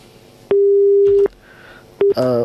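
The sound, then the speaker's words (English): A telephone busy tone sounds after a dropped call: one long, steady, loud tone, then a brief beep, then a harsher buzzing tone. No voices are heard. “I think that caller got dropped off.”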